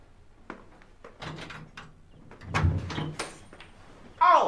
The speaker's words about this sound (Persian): آقا در قفل قربونت. خب باز میکنم.